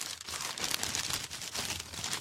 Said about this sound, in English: In fact, we'll give you some audio wrapping paper now.